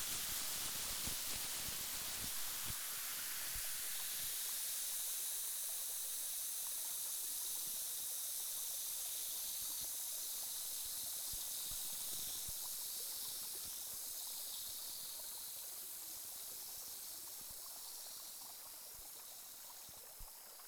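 Water rinsing down and flowing away after washing: a steady, broad rushing hiss runs unbroken for the whole length, easing slightly toward the end, with no voices.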